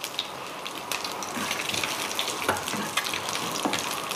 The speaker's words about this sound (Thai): แล้วก็เอากุ้นเชียงผัดให้กุ้นเชียงน้ำมันออกหอม